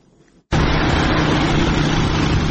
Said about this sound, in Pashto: دغه غږ د هغه وسلوالو طالبانو د موټر سایکلانو او موټرو دی